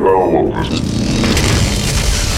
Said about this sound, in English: the far-right console of the control room exploded in a shower of sparks